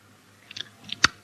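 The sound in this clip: Someone chewing, a few short, moist clicks and crunchy bites scattered across a quiet second, the last one the loudest.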